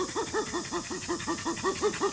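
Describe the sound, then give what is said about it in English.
A chimpanzee gives a pant call in an affiliative context during an approach: many quick, breathy, rhythmic pulses in an even series, each a short rising-and-falling voiced huff, fairly quiet throughout. “and a pant is given in an affiliative context, usually during an approach, and sounds a bit like this.”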